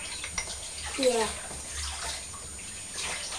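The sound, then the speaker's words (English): Water runs while dishes are washed up at home: a steady, hissing splash that continues throughout, with a brief voice heard faintly over it near the middle. “I'm going to do some washing up.”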